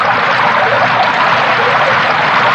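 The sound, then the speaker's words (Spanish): Insecticide liquid pouring down in abundance: a loud, continuous, rushing pour with no break or change across the whole stretch. “El líquido matabichitos caía en abundancia.”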